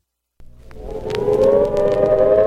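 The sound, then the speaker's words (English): A civil defense warning siren for an imminent nuclear attack starts abruptly, then climbs in pitch and loudness into a steady, sustained mechanical wail heard on its own. “The sound you hear is a recording of the warning siren in case of an imminent nuclear attack.”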